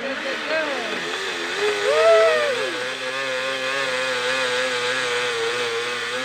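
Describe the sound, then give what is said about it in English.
Whirring motor whine of a blender driven by a stationary pedal bike, a smoothie bike, held as a steady harmonic drone throughout. People talk over it in the first half. “That curious sound could be heard almost non-stop throughout the afternoon. It's from a smoothie bike. Yes, a stationary bike had been fitted up with a connection to a blender.”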